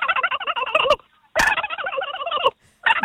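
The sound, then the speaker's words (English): A turkey gobbles in three loud, rapid, warbling bursts separated by short silences, the last one cut short. “I've got a couple for you, mate. First, the turkey.”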